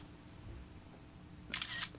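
A camera shutter snaps a couple of quick mechanical clicks while photographing an exhibition of torture instruments, heard near the end over a faint, quiet background.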